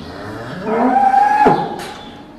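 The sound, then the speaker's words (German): A dairy cow moos in a barn housing over a thousand dairy cows: one loud, long, low moo that swells and then fades, heard alone without talk. “Über 1.000 Milchkühe stehen im Stall der Agrargenossenschaft Lückstedt.”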